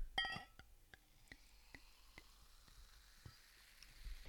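A drink poured quietly from a freshly opened bottle, with a soft fizzing hiss and a steady run of faint glugging clicks.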